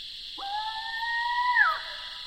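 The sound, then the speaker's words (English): A barred owl gives its scream call at night, one drawn-out, piercing screech that rises sharply, holds for over a second, then drops away, over a steady faint background hiss. “yet another extraordinary voice of the night, the rarely heard scream call of a barred owl.”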